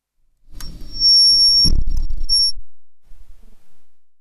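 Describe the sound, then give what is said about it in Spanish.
A high electronic beep sounds twice, a longer tone followed by a shorter one, over a soft thump and low rumbling noise that fades out. “hay un pitido.”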